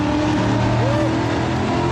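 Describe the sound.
Powerful American car engine roaring through a tunnel, a loud, dense, continuous rumble with steady engine harmonics and no break over the whole stretch.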